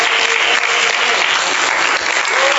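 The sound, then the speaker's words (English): An audience claps their hands in praise at a Sunday School church service: loud, dense, steady applause from many hands, sustained evenly throughout without a break. “Come on and put your hands together and give praise to the Lord.”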